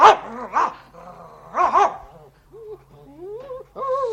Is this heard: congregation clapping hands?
no